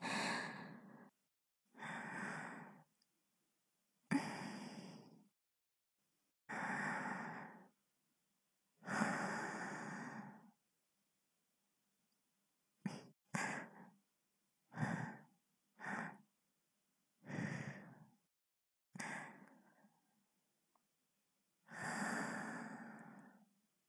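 Soft breathing close to the ear, heard alone as many separate breaths: long, slow inhales and exhales, then a run of shorter, quicker breaths, then a final long breath.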